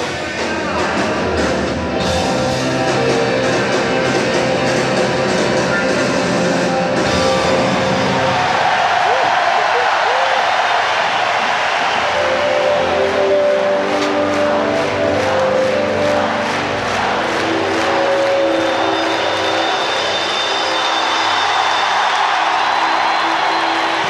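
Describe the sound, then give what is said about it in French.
A huge concert crowd of 30,000 roars and cheers for a 20-year-old singer, a loud, dense, unbroken wall of noise that runs the whole way through with some tonal sound mixed in. “Jennifer est acclamée par les 30 000 spectateurs.”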